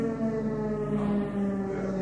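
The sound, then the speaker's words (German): A district-wide fire alarm siren gives a sustained, steady tone with rich harmonics, holding at an even loudness through the whole clip with no clear pause. “Wir haben hier die Sirene für den ganzen Landkreis. Also wenn irgendwo was brennt, dann geht hier die Sirene los.”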